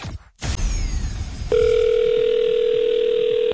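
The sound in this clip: A telephone dial tone sounds as a phone call starts, entering abruptly after a moment of noisy handling and then holding as a loud, steady, unbroken tone to the end.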